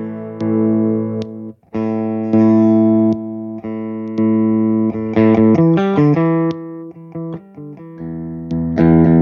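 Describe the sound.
Clean electric guitar tone with a 20 dB volume boost: loud, sustained notes and chords ring out steadily, with a quick run of shifting notes near the middle. No voices.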